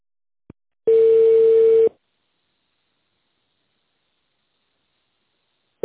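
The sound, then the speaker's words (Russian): Telephone line tone while a call is being transferred: a faint click, then one steady mid-pitched tone lasting about a second, a long silence, and the next tone starting just at the end. “Сейчас я соединю с Русланом Павловичем.”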